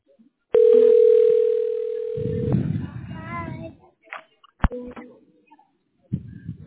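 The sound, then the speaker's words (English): A telephone dial tone hums steadily for about two seconds while a call is placed, then cuts off abruptly. Rough noise and a few sharp clicks follow, with short bursts of sound after them. “Okay, we're dialing the tax specialist right now.”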